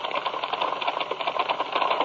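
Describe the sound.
Typewriter typing, a rapid, steady clatter of keystrokes that runs without pause through the whole clip, with no voices.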